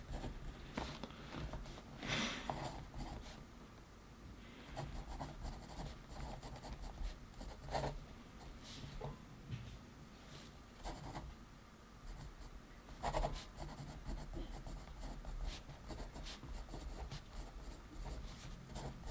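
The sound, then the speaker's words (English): Quiet scratching of handwriting as someone writes down a list of personal goals. The strokes are irregular, with short bursts and pauses over a long stretch, and no one talks. “Go on, write your 5 to 10 goals right now, and I'll write mine. Do them right now, keep the video playing, because I'm gonna write mine right now.”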